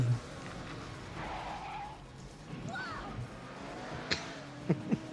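Car engine and tire noise from a driving scene in a played video about traffic in California, a steady rushing drone with a skidding swell, then a few sharp knocks near the end.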